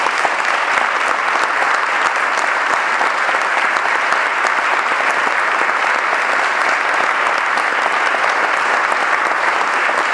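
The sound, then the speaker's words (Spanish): Prolonged audience applause at a commemorative gathering honoring three mothers who disappeared, a loud, dense and unbroken roar of clapping that holds a steady level throughout. “Un fuerte aplauso por ellas.”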